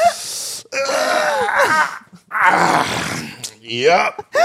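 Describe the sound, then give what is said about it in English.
A person groaning as if getting up or sitting down: several drawn-out, voiced vocal groans with wavering pitch, separated by brief pauses. “when you reach a certain age, you must groan every time you get up or sit down”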